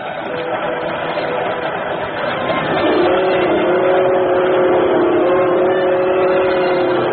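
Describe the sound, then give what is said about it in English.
A local train travelling late at night, a steady loud rumbling roar with a droning hum that swells in midway and holds to the end. “That sound is the most lonesome sound in the world. But maybe that's because I feel so alone on a train late at night.”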